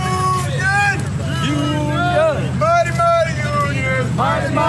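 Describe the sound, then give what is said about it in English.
Striking General Motors auto workers protesting: a crowd of overlapping voices shouts and calls out loudly and continuously. “So that sound is some of the tens of thousands of General Motors auto workers who walked off the job yesterday, arguing that they aren't being fairly compensated in light of GM's record profits.”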